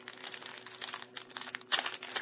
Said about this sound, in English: All right, so I'm getting ready to open up a pack of 2026 Series 1 cards here from Topps.